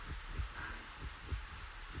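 A pounding heartbeat gives many quick, low, soft thumps in a steady rhythm beneath a constant hiss.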